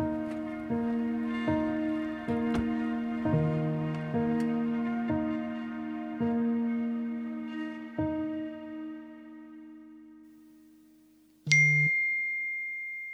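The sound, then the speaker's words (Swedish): A notification chime sounds from a messaging app after a run of many ringing, bell-like dings that fade away. One bright, sharp chime then rings out alone near the end. “Meddelande i WhatsApp-tråd.”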